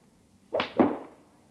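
Golf club swing whooshes made as a staged sound effect: two quick airy swishes in close succession, the second louder and trailing away.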